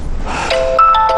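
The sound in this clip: A mobile phone rings for an incoming call with a short, melodic ringtone of bright, chiming tones.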